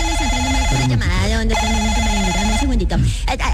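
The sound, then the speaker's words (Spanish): A telephone rings with an incoming call, giving steady tones under a voice speaking over them. “Espérame un segundito que me está entrando una llamada.”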